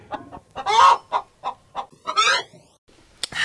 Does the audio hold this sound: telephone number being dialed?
no